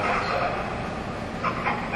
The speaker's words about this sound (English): There's a train in the background.